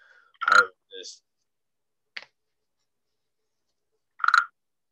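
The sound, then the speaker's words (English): Frog croaking: two loud, rasping croaks several seconds apart, with a few faint short clicks and chirps between them and silence around. “That's a damn frog, boy.”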